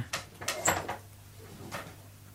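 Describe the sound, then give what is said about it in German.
A window being opened, heard as a few quick clicks and knocks of the latch and frame close together, then one more soft knock after a pause, all faint. “Ich möchte gern das Fenster aufmachen. Darf ich?”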